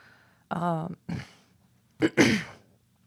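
Throat clearing from phlegm: a few rough, gravelly bursts, the first with a voiced, rattling buzz, separated by short pauses and moderately loud with no talk over them.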